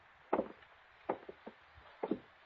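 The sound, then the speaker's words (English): A thick wooden study door is opened, giving three groups of dull wooden clunks and thuds, each a heavier knock followed by a smaller one, fairly faint with no voices. “And I'll open the door.”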